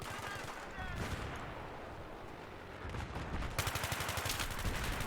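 Rapid automatic gunfire rattles in a video game, dense overlapping bursts of shots throughout, settling into a fast, even, steady rhythm of loud reports toward the end.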